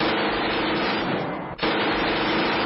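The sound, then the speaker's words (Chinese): Two people fire submachine guns at once under moonlight, producing a loud, dense, continuous rattle of gunfire that breaks off briefly near the middle and then resumes just as strongly. “两个人同时应了一声，而后便同时亮出了微型冲锋枪对他射击。”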